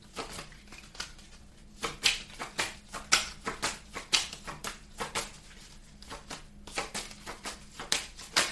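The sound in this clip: Playing cards are shuffled and drawn during a card reading, a faint run of many quick papery clicks and riffles in uneven bursts, with no talking.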